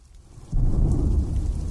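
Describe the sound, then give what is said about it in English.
Heavy rain falls outside a house, a dense rushing hiss that swells sharply about half a second in and then holds loud and steady to the end. “I was hoping the rain would let up soon, but its intensity kept up.”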